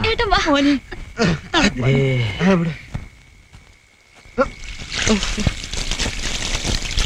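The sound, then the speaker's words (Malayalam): Water from buckets is poured over someone's head. Voices talk first, then a sustained splashing rush fills the last couple of seconds. “വിഷമിക്കാനൊന്നുമില്ല, മോള് 2 തൊട്ടി വെള്ളം കോരി തലയിൽ ഒഴിച്ചു കൊടുക്ക്.”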